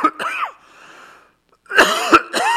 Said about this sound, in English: I might cough again, however. Here it is.